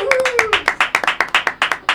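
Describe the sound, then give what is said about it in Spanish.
Audience applause heard as many sharp, evenly spaced claps in a steady rhythm. A voice sounds briefly over the first few claps. “Bueno, un aplauso para ustedes.”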